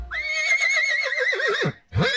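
A horse neighs loudly in a single long whinny with a shaky, quavering pitch that drops at the end, followed after a short pause by a brief second burst.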